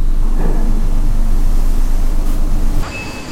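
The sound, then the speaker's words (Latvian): Steady low rumble of an elevator riding up to the sixth floor inside a pasta factory, with production noise throughout. The drone holds evenly, then drops slightly near the end as a thin, high whine appears. “braucam ar liftu uz kuru stāvu? Šobrīd uz sesto stāvu brauksim.”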